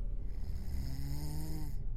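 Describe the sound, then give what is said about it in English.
A big man snores in a steady, low, rumbling drone that holds an even tone and stays loud for the whole stretch. “seconds later, his snoring returned.”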